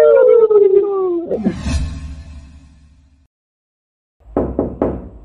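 Knocking on a door: a few quick, sharp raps close together after a stretch of silence, preceded by a falling, howl-like tone and a low rumbling swish.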